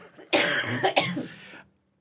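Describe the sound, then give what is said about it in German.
A smoker's cough: two harsh, raspy bursts in close succession, moderately loud, each with a rough, phlegmy texture, followed by quiet. “ich muss mal kurz Rauchhusten husten.”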